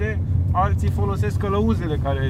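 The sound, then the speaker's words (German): Steady low engine rumble of an off-road vehicle driving along the Romanian-Serbian border near Cimbolia, a continuous drone running under speech. “Mit einem Geländewagen fahren wir bis zur Grenzlinie nach Serbien.”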